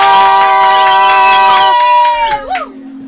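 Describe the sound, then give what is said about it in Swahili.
A crowd cheers and shouts to welcome a guest. Sustained high voiced tones are layered over faint clapping, then a short whooping cry as the noise thins out. “tumkaribishe mgeni wetu Bwana Makini kwa makofi, shangwe na vifijo.”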